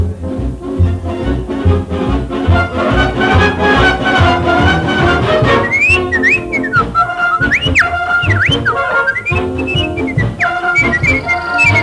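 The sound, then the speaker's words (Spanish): A short whistled tune, its melody rising and falling in the second half over loud, steady instrumental music. “Y será el zorro que cerrará la emisión con el silbidito.”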